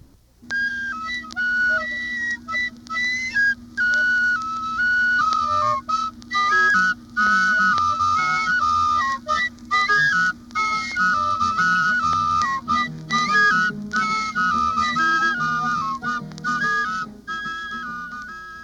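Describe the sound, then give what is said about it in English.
Penny whistle band music from Southern Africa: a bright, shrill whistle melody of quick, bouncing high notes with short breaks, played over a steady lower backing throughout. “One of my favorite types of music from Southern Africa are the groups called penny whistle bands. The whistles sound like this.”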